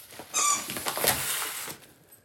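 A dog squeaks a squeaky toy in a kitchen. A few bright, high-pitched squeaks come in quick succession, mixed with softer rustling and handling noise.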